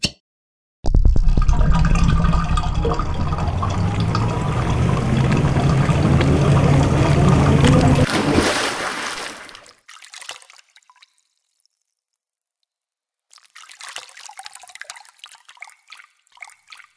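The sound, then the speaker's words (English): Bathwater drains after the plug is pulled: a loud, steady rush of water runs for about eight seconds and fades away. After a pause, scattered gurgles and drips follow. “Okay, everyone, stand up. I'm going to pull the drain.”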